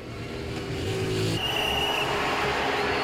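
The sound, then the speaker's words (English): A car racing along a street, its engine roaring in a loud, sustained drone with a thin high whine riding on top, holding steady throughout. “He offers her his hand, and she warily takes it, getting to her feet. Sonny's racing along a street.”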